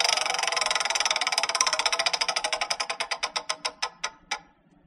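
A game show prize wheel spins with rapid ticking that gradually slows, the clicks spacing out further until they stop. It is moderately loud and plays alone.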